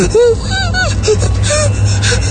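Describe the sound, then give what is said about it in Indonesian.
Gasping, labored breathing from a person struggling for air, with a few short strained, whimpering breaths over a low steady hum. “Sekarang terasa nafasku tersengal-sengal. Aku sulit bernafas. Nafasku sesak.”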